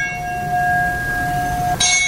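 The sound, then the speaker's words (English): Bells toll at a 9/11 remembrance aboard the Intrepid before a volunteer meal-packing event, a sustained, clear ringing tone that holds steadily, then is renewed by a fresh stroke near the end. “The tolling bells, a moment of silence”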